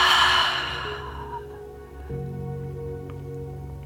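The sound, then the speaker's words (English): A long, loud exhale at the end of a deep breath in a guided breathing meditation: a strong breathy rush that starts loud and tapers off over about a second and a half into near quiet. “Biggest breath in of the day. Fill up every nook and cranny. Longest, loudest exhale.”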